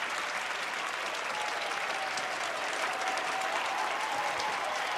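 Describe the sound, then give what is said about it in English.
Applause from a theater crowd giving a standing ovation, a dense, steady roar of many hands clapping that holds at an even level for the full five seconds without pause. “She manufactures a radiant smile as she steps forward to a standing ovation from the crowds at a theater.”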